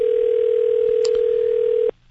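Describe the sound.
A telephone ringback tone sounds while a guest is called: one steady, low electronic tone held for nearly two seconds, then abruptly cut off.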